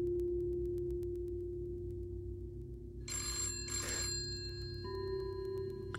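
A red wall telephone rings in a bare, sterile room, giving a double ring of two short, bright bursts midway through. A steady low hum sits underneath and a faint tone lingers afterward.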